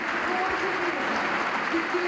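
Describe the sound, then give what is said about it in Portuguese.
Standing ovation from delegates at a political party congress, dense and sustained clapping at a steady level throughout, with a voice speaking underneath. “Terminar agora a intervenção com aplausos que são ouvidos e audíveis nesta altura e com o aplauso de pé do Congresso.”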